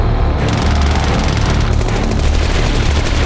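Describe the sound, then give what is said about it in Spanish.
Machine-gun fire from three groups shooting almost in unison, a loud, dense, unbroken roar with rapid crackle throughout. “Los tres grupos empezaron a disparar casi al unísono. Las ráfagas que escupían las ametralladoras se oían por encima de los bramidos y quejidos de los monstruos.”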